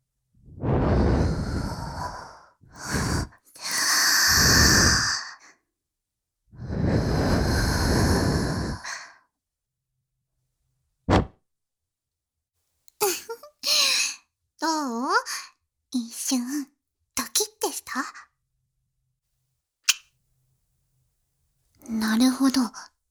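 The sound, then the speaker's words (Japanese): Soft breaths blown into the listener's ear in an intimate ASMR-style scene, a few long breathy whooshes in a row, then quiet whispering in short bursts. “お耳を ふうふうってされるの。 心地よいだろ？ 気持ちいい？”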